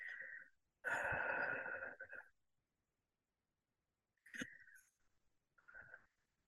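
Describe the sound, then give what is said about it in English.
Slow breathing during a guided exercise, in through the nose and out through the mouth. A long, loud breathy rush comes first, then after a silent pause a few shorter, fainter breaths. “Now let's say, let's breathe 7 times, guys, 3 times.”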